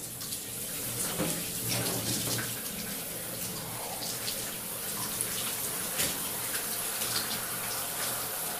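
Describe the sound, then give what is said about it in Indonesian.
Water runs and splashes as a person rinses their body while bathing in a bathroom, a continuous, fairly faint wash of flowing water with scattered small splashes. “Ah, segarnya, ucapku sambil membilas badanku.”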